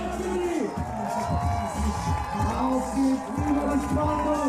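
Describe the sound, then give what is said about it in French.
A large crowd of spectators fills the air at a packed sports final in Darmstadt, a continuous roar of cheering and shouting voices that swells and dips throughout. “le public, hein, vous l'entendez, on a fait le plein ici à Darmstadt. Beaucoup de monde dans cette finale.”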